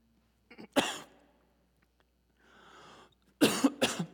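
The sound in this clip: Coughing from a man after something went down the wrong way: a few harsh, rasping coughs, a quiet pause with some soft breathy noise, then another loud cluster of coughs.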